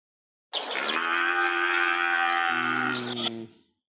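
A cow moos once in a single long, sustained, lowing call that holds steady for about three seconds before cutting off, heard alone with no talk.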